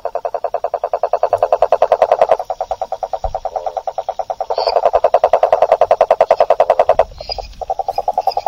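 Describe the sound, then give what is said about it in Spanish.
A rococo toad, Argentina's largest toad, croaks in loud, rapid, evenly pulsed trills like a small tractor running. The long bouts of mid-pitched throbbing break briefly and then resume, with no other sound. “Es un sapo que en el norte le dicen rococo, sapo güey. Y tiene un sonido que me encanta, que es como un tractorcito funcionando en medio de la noche.”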